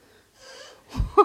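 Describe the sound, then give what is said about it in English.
A pet's snorting: a few short, wheezy nasal snorts and breaths, quiet at first and then louder, ending in one sharp, honking snort. “You can probably hear her snorting and dragging her feet through the...”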